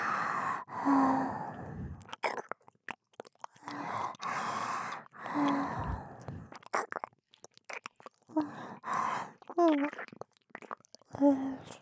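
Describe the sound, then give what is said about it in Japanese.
Breathy sighs of hot breath exhaled against the neck come in several soft puffs, each airy exhalation tinged with a low voiced murmur and separated by brief pauses. “こう密着してあると、わしの首筋に熱い吐息がかかって、”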